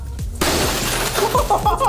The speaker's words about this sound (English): That was glass.